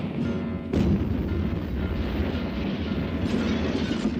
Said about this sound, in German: Ein Haus wird gesprengt. Und noch eines.